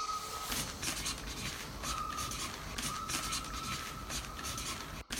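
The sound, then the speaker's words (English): Faint pen-on-paper scratching as something is written by hand, with short, rapid strokes repeating in uneven bursts and a brief pause near the end. “I better write this down to help me think.”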